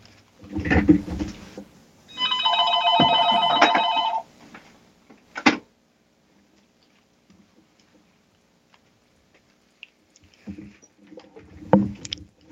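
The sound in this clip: A telephone rings with a robocall: one sustained burst of bright electronic ringing lasting about two seconds, set among scattered handling thumps and quieter noises.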